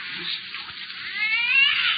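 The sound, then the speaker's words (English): A cat's drawn-out meow or yowl that holds steady and then grows louder and more tonal toward the end, heard alone with no talk. “Yes, yes, I lied. It is a cat. Just a cat. But I'll make it be quiet for the whole way.”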